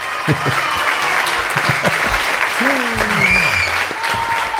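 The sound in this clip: Applause sound effect: a dense, steady wash of many hands clapping, loud throughout, with voices talking over it.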